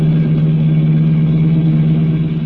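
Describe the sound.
A car engine runs with a loud, steady low drone, its pitch holding even throughout with no clear rise, and no voices over it.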